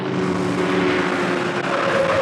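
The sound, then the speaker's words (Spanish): Roaring engine of a very fast car in pursuit, a dense, loud, continuous rumble with a steady underlying hum, unbroken for the whole stretch and without voices. “En un auto muy veloz, el doctor Quiro y su ayudante han emprendido la persecución de Calimán y del muchacho.”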